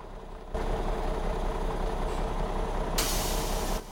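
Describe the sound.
A bus engine rumbles heavily at idle as a passenger boards, then the air brakes let out a loud, sharp hiss lasting under a second before the sound cuts off.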